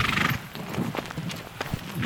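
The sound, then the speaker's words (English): Pack string of mules and horses walking on a steep trail in a wilderness area, a few soft hoof clops spaced unevenly over a quiet, rustling background. “A pack string, mules and horses.”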